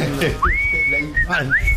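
A person whistles a short tune: clear, high sustained notes with quick rising slides into them, with a brief break before the last phrase.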